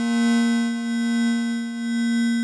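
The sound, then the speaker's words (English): A synth holds one steady note with a bright, buzzy stack of overtones. Its sample rate is lowered to give a harsh, chiptune-like edge, and the volume wavers gently throughout. “So what I did is change up the sample rate for a split second here and there to change the tone of the synth and to accent certain notes.”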